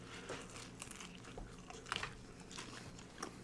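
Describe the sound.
Crunchy bites into a buffalo chicken pizza with a crisp crust: faint crackling chews with a few sharper crunches standing out, and no talk.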